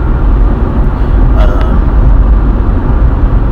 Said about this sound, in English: I'm driving to work right now